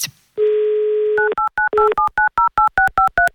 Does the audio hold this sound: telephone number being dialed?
yes